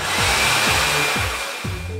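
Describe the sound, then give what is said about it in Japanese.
A hair dryer runs after a shower, a loud, steady blowing whoosh that holds for the full two seconds, with a few low falling tones repeating faintly underneath. “シャワーを浴びる。ドライヤーを使う。”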